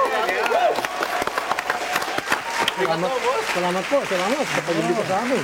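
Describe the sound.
An audience applauds to welcome a senator as a guest on a talk show, a dense patter of clapping throughout, with a voice talking over it in the second half.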